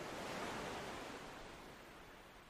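Ocean waves wash onto a deserted beach as the tide slowly comes in, a soft, steady hiss of surf that gradually fades, faint and alone.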